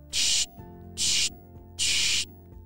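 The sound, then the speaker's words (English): Three short hissing spray bursts from a spray bottle of bubbleberry-scented soap being sprayed onto football equipment, evenly spaced with quiet gaps between them. “He sprayed a few sprays of the bubbleberry soap,”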